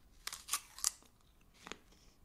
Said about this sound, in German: Das ist ein Zwergapfel. Und in den beiße ich jetzt rein.